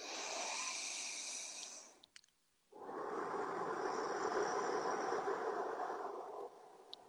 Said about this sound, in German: den letzten würde ich jetzt richtig tief einatmen nochmal.